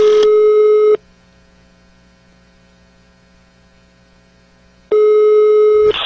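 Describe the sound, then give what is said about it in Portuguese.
Telephone ringback tone as a call is placed: two steady, mid-pitched tone bursts, each about a second long, separated by roughly four seconds of near silence with a low hum underneath. “É hora de ligar aqui e vamos colocar o Bolsonaro”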